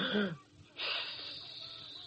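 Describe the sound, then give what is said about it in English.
A long, wheezy deep breath is drawn in, a steady, airy hiss that holds and slowly fades, coming just after a brief voiced sound. “Take a deep breath.”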